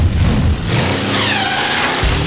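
A car engine revs and accelerates in a loud, broad roar, with whining tones that swing upward and back down over the middle of the sound.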